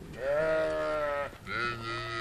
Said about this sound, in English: Ginger O'Byrne shows us the fainting goats.